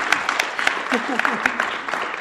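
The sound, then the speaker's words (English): Audience applause welcoming a guest on stage, a dense, steady patter of many hands clapping across the whole stretch, with a voice briefly audible through it. “So let's give her a hand of warm welcome.”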